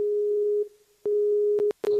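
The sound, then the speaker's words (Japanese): Telephone line tones sound as a call is dialled: a steady low tone breaks off, resumes, and is then cut by a few sharp clicks. “では発信します。”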